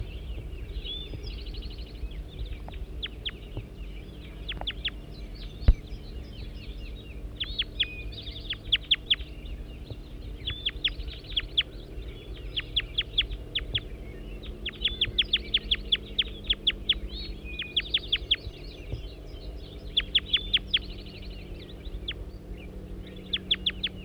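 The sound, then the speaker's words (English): Recorded bird calls: many short, high chirps in quick bursts over a steady low hum, with no voices. “Back to bird 205.”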